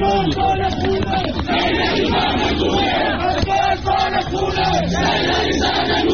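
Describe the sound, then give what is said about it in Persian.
A crowd at a funeral in a cemetery in Falavarjan chants anti-government slogans, a loud, continuous mass of raised voices with rhythmic shouted phrases rising and falling. “در ویدیوهایی که از مراسم خاکسپاری او در قبرستان فلاورجان منتشر شده شرکت کنندگان شعارهای ضد حکومتی سر دادند.”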